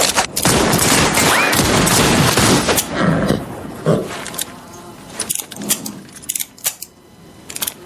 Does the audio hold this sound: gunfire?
yes